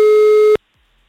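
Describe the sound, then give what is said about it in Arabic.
A telephone call's ringing tone, placed to a contest caller, sounds as a single steady electronic tone of about half a second. It cuts off abruptly into silence. “رح رن اربع رنات الرابعة الاخيرة رح اعطي فرصة لحدا تاني.”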